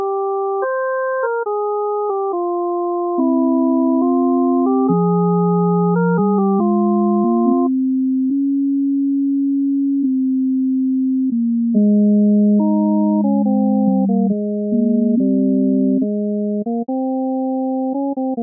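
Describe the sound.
A fugue played entirely as pure sine tones, one theme sounding at three speeds in soprano, alto and tenor voices. Several steady electronic lines step between pitches at once, with a long held low note midway before the upper voices return.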